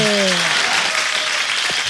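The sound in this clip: Applause, a dense and steady patter of clapping, with a voice heard briefly at its start.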